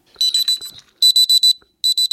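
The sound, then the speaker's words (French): Electronic beeps come from a beeper inside a teddy bear, set off by a remote control. The high, shrill tones arrive in three quick bursts of several short beeps each, loud and with no other sound. “Quand j'appuie sur la télécommande, le nounours, il va se mettre à biper.”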